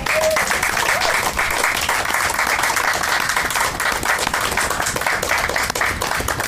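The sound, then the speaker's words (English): Sustained applause from an audience at a poetry reading, honouring a poet who has just finished: dense, steady clapping that holds at an even, loud level throughout. “Let's give Ellen another hand.”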